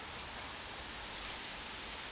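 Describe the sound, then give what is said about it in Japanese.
Sudden rain shower: a dense, continuous hiss of raindrops striking surfaces, even and unbroken throughout, with no voices. “嘘でしょ？こんな急に雨が降ってくるなんて。”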